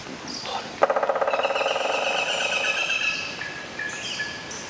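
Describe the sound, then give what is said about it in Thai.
A woodpecker drills a nest hole in a tree trunk: a sudden rapid roll of sharp, evenly spaced knocks that runs for about a second and then tails off into softer tapping. “มาตั้งใจฟังเสียงนกหัวขวานเจาะโพรงไม้กันดีกว่านะคะแล้วก็จดจำไว้เลยค่ะเข้าป่าเมื่อไรถ้าหากว่าได้ยินเสียงนี้มองหานกหัวขวานได้เลยค่ะ”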